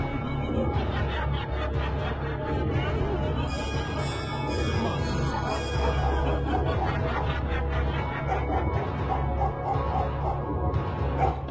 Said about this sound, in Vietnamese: Cho đến khi tiếng con chó mực sủa ầm lên, xua tan những âm thanh réo gọi.